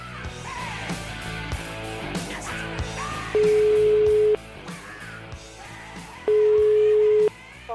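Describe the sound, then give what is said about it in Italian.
A telephone line ringing out on a call: two steady, mid-pitched ringback tones, each about a second long, separated by a long gap, heard over a busy, noisy background. “La telefonatina la facciamo, dai, fatemi squillare il telefono di questo Bau Bau.”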